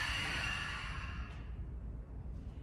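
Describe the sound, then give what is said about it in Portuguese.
A long, breathy exhale during a Lu Jong therapeutic yoga movement, a soft rushing sigh that gradually fades over a couple of seconds. “inspira. Solta o ar descendo.”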